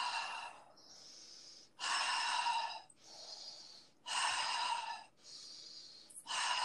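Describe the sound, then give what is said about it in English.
Breathwork in a connected, circular pattern, inhaling through the nose and exhaling through the mouth: steady breaths alternate between softer and louder rushing phases over a few cycles, with no pause between breaths. “So it's inhaling through the nose, exhaling through the mouth.”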